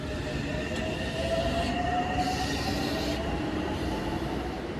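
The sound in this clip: Metro train pulling into a crowded station, with a steady low rumble of wagons and wheels and thin, high squeals of wheels on rail drawn out across the passage.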